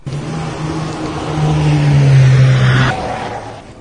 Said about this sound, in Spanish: Nos podemos ir ya. Voy sacando el coche.